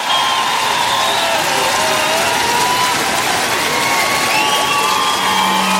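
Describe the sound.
Audience applause and cheering for a band at a live show in Lille, a loud, dense, sustained roar of clapping and shouts that never lets up.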